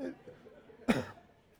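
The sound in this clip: A single short, sharp cough from someone with something stuck in the throat, faint and isolated against near-silence.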